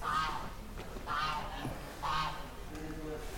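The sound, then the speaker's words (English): A goose honking at an old board school: three short, nasal, harmonic honks spaced about a second apart over a faint steady background. “goose”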